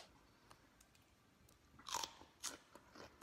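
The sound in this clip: Someone bites into fresh raw okra with a dip, making a few faint, crisp crunches with chewing between them. The loudest bite comes in the middle, and no one talks.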